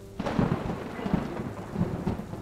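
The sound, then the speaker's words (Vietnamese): Thunder and rain in a storm at sea aboard a ship: deep, rolling booms break in abruptly after a brief hush and recur several times over a steady hiss of falling rain. “Sấm chớp vang lên rạch ngang cả bầu trời”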